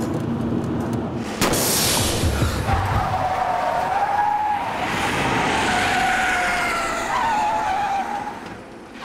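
A car skids on a wrecked tyre with a long, loud tyre squeal that holds a steady high tone for several seconds over engine and road noise.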